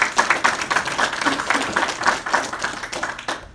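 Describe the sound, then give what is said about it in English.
Audience applause at a church gathering: dense, steady clapping from many hands that carries through the whole stretch at an even level. “So would you help me put your hands together and welcome Ruth Williams today to share with us.”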